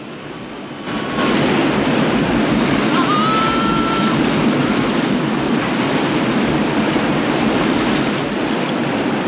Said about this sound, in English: Fragments of kayak tumble down the thundering waterfall around him as he's carried spinning and twisting from one plunging drop to the next.